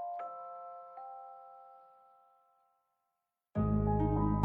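A two-note ding-dong chime sounds once, its tones ringing out and fading into silence before a louder sustained tonal sound abruptly cuts in.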